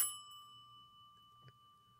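A hand-turned doorbell at a front door gives a single bright ding whose clear ringing tones fade away quickly, followed by quiet with a faint soft click later.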